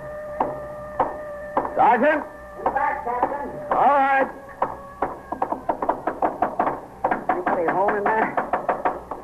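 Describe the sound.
Police knock hard and repeatedly on apartment doors while searching a building, fast sharp raps in many quick bursts, with voices shouting loudly over the first part.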